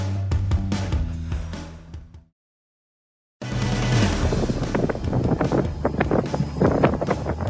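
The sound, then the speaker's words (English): Cold wind blows at an airport in Bangor, Maine, in a severe cold snap: continuous loud, rough roar and buffeting against the microphone, broken by a short silent gap midway. “That wind only makes it worse. This is at the airport in Bangor, Maine, where the wind chill felt around negative 30 today.”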